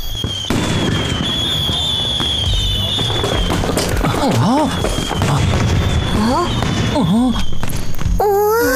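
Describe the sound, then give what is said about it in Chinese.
Fireworks go off at a campsite in dense, continuous crackling and booming bursts, loud throughout, with several whistling tones that rise and fall in pitch. “是烟花。 过分，谁在野营地放烟花呀？”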